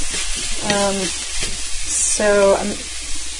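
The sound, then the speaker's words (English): Chopped tomatoes added to a hot frying pan sizzle steadily while being stirred, a continuous hissing fry throughout. “I'm really just adding the tomatoes, like, just for a little brightness, a little acidity.”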